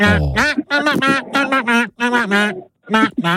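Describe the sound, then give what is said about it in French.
A popular song sung in an imitation duck voice, a string of nasal, buzzy quacking syllables following a melody, grouped in short phrases separated by brief gaps. “On a joué donc avec un tube en version canard, interprété par notre canard de la pêche. Ça fait comme ça.”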